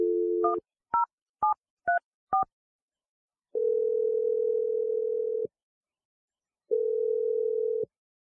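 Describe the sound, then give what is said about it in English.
Touch-tone dialing of a phone number: a brief dial tone and a quick series of separate electronic keypad beeps, followed by two long, steady, low ringing tones with a pause between them. No voices. “here we go. I'm dialing his number right now.”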